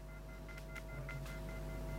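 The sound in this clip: Faint beeping on a telephone line, a few short high tones over a steady low hum and hissy line noise.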